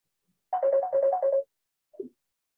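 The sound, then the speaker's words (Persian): A telephone ringtone plays a fast electronic melody of repeated bright notes in a short burst, then stops, followed after a brief pause by one short lower tone. “دوستان از ایران زنگ میزنن نمیدونن که اینجا وقت زنگ نیست”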